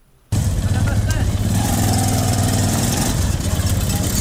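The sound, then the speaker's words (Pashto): A motor rickshaw built from a Zaranj motorcycle engine cuts in abruptly and idles with a loud, steady, rattling putter. “کندهار کې د ټیکسي موټرونو او نورو رکشو سره سره خلکو د زرنج موټر سایکلونو څخه رکشې جوړې کړې او سپرلې وړي راوړي.”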